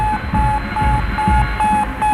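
Radio beeping of the Sputnik 1 satellite: a quick, evenly spaced series of short, high-pitched beeps, loud over a dense crackling, noisy background.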